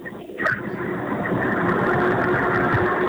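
A car engine drones steadily while driving through a mountain range, a low, even hum with a short louder swell near the start before settling into a constant rumble.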